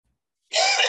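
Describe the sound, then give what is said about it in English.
Throat clearing from a tickle in the throat: a single harsh, raspy burst that begins midway and holds loud and steady for about half a second, heard alone after silence. “Now I got a tickle in my throat.”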